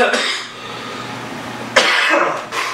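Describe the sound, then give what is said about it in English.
Harsh coughing from a person giving a talk: a few sudden, breathy bursts break through the low background, with the loudest coming near the end. “And I do apologize for the coughing.”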